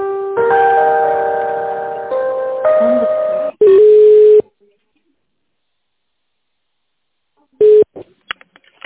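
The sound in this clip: Electronic tones play on a telephone line while a call is transferred. A run of steady, sustained tones steps between pitches, then a short loud beep, silence, another brief beep and a few faint clicks.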